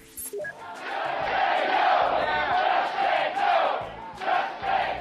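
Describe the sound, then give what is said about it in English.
Healthcare protesters chant outside a town hall in Tampa, Florida, a crowd of voices rising into a sustained, rhythmic chant that swells and briefly drops before picking up again. “Now, that's the sound of a healthcare protester chanting outside a town hall in Tampa, Florida on August 6th of this year.”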